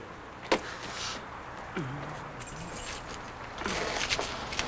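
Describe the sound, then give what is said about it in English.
Keys jangle as they are dropped and picked up, with a sharp metallic clink early on, a softer rattle in the middle, and a longer burst of jingling near the end over a quiet background. “She drops her keys, slowly picks them up,”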